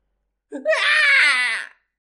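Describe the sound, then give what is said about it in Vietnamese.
A single anguished scream, an audiobook sound effect, swells into a strained, sustained wailing cry lasting about a second before breaking off into silence. “Tiếng kêu thảm thiết vang lên liên tiếp, những người bỏ chạy hướng vừa rồi lập tức quay ngược trở về.”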